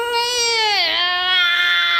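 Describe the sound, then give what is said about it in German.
A Pepper humanoid robot screaming: a sustained, buzzy, harmonic electronic wail that dips in pitch midway and then levels off, loud and continuous for about two seconds. “Wenn seine Augen rot leuchten und er anfängt zu schreien, hat selbst Pepper etwas Furchteinflößendes.”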